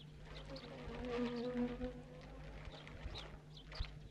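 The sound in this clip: Bees buzz inside a bag, a low, steady droning hum that swells slightly in the middle, faint, with scattered small clicks and rustles around it.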